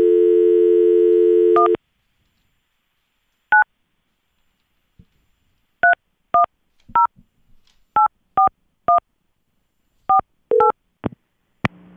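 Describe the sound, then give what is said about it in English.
A telephone number is dialed on a touch-tone phone to call a newsroom: a steady dial tone, then about ten clear, loud keypad beeps in an uneven rhythm. “let's dial him up”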